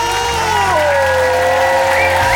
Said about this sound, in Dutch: Goed, goede klappers heb ik graag.